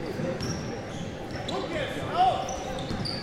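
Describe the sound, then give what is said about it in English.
Basketball dribbling during a game, the bounces faint and buried under a constant crowd roar and talk. “Crossover dribble.”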